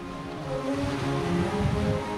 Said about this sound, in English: Down below, about 30 feet or so, the frigid water crashes up against the pier's concrete posts.